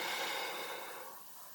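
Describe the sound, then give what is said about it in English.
A slow, soft exhale during a guided breathing exercise: a single airy hiss that fades gradually, heard alone without talk. “Breathe out. Breathe in. Breathe out. Breathe in.”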